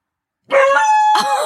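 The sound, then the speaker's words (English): A dog barking after hearing its name gives two loud, tonal, drawn-out yowling barks in quick succession, the second cut short at the end. “Oh, he's barking a lot. He really heard his name.”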